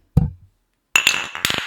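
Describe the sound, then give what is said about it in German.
A dull thump of microphones bumped together in a toast, then after a short pause a couple of bright, ringing clinks of drinking glasses, beer among friends. “Wollen wir darauf nochmal anstoßen? Ja, machen wir erst. Aber erst mit Mikrofon und dann mit dem Glas.”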